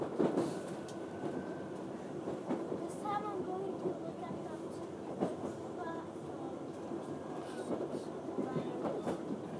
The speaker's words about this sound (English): We're on the Piccadilly line to Cockfosters.